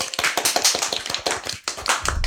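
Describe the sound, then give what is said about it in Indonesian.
Applause for students, with teachers present, at a school event: many quick, sharp claps in an uneven rhythm, loud throughout. “Kita kasih tepuk tangan nih.”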